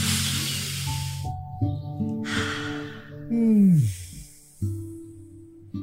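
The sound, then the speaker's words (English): People take deep, slow breaths during a relaxation exercise. A few long, airy breathing sounds rise and fall over soft, sustained musical tones. “Let's all take some time to relax and take in a deep breath.”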